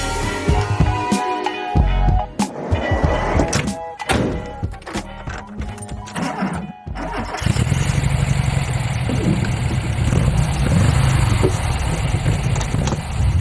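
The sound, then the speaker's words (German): A VW Bulli van's engine hums while driving through Hamburg, settling into a low, steady drone after a stretch of irregular thumps and clatter. “dieses wohlige, brummende Geräusch im Hintergrund, das ist mein Bulli. Und zwar fahre ich hier gerade auch tatsächlich durch Hamburg.”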